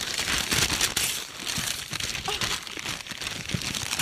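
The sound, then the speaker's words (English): Wrapping paper crinkles and rustles as a gift is unwrapped, a continuous, fairly loud crackling with sharp crunches for about four seconds. “Are you ready to unwrap the gift? I'm ready to unwrap my gift.”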